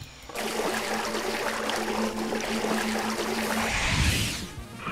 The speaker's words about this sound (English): It started to rain.